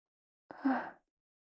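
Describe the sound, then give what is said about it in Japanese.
A gentle puff of breath is blown into the listener's ear. It is a single soft, airy whoosh lasting about half a second, quiet and alone against silence. “とりあえず、もう一度、お耳ふうふうしておこうかい。”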